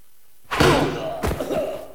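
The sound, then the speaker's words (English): Two sharp, heavy thwacks mark a karate chop striking a disciple in a fight, each with a short thud that decays quickly. “Meanwhile, Rudy karate chops a disciple.”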